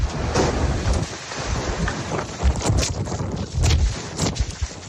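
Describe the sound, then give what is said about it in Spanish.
Strong wind gusts from a thermal downburst on the coast at Torrevieja, over 90 km/h, roar as loud, continuous rushing noise that buffets the microphone, surging and easing in uneven pulses with no talk. “Localidades del litoral entre Santa Pola y Guardamar del Segura sufrieron rachas de viento de más de 90 kilómetros por hora. Así sonaba el que azotó Torrevieja.”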